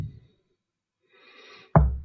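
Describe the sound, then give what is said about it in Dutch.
A single dull knock on a door in a video game lands near the end, short, low and thumping, after almost total quiet with only a faint murmur. “Ga je echt aankloppen? Nee. Ga je echt aankloppen? Okay.”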